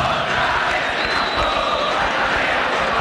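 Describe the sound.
A football crowd cheers on Cerro during a Cerro vs Olimpia match between classic rivals in Paraguay: a dense, loud, steady roar of many voices, unbroken throughout.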